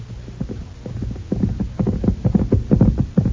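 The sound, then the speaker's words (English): Ridden horses walk along a moonlit trail toward a ranch, their hooves giving a steady run of many soft, low thuds that grows gradually louder. “threaded our way along the moonlit trail leading up to the Rutledge Ranch. A long day in the saddle sure made us look forward to the Rutledge hospitality.”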